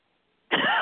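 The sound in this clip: A single harsh cough from a throat tickle breaks a near-silent half-second, loud and raspy, running on as one sustained burst to the end.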